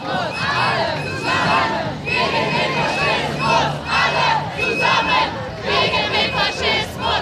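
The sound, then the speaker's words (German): A large crowd at a protest demonstration outside an AfD party convention hall shouts and chants in repeated loud bursts, a steady rhythmic roar of many voices. “Neben der Parteitagshalle eine große Protestdemo.”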